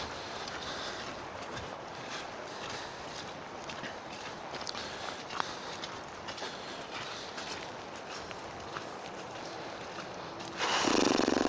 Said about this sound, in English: Another walk, so I'm kind of conscious because I spent large portions of it just walking. Not talking.